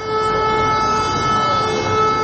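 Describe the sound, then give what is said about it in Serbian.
Civil defence all-clear siren sounding in Serbia: a loud, steady continuous tone that holds one pitch for the whole stretch, alone with no voices. “Ali ne samo zvona. I sirene za prestanak opasnosti.”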